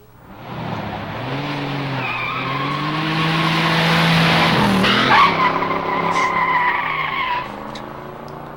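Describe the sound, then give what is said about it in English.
Tires screech as a taxi skids to a stop, blended with continuous car engine noise. The sound stays loud and sustained for several seconds, then eases off toward the end. “which screeched to a stop. The scribe shoved the suitcase and trunk into the taxi, jumped in, and the taxi drove off.”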